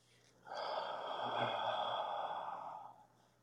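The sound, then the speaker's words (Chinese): A single long, slow breath taken during a guided breathing exercise, a soft, airy rush that swells and then fades over roughly two and a half seconds. “吐气，再一次吸气，吐气，”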